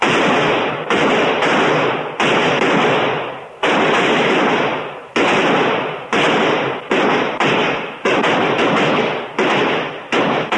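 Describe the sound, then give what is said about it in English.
Gunfire at a firing range: many loud shots in an irregular string, each blast ringing and fading before the next, with no pause of silence between them. “He aims at a target. Commence fire.”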